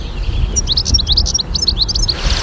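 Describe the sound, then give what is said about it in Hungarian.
A goldfinch sings a high, fine, rapid twittering phrase of many quick notes over a steady low rumble. “Tengelic, halljátok a tengelicet? Ez a magas, finom ének.”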